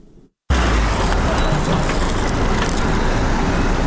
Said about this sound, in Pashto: دا ژغونه د هغه موټرو دي کوم چې په طبي او غیر طبي وسایلو او د غراز په درملو باندې بار دي.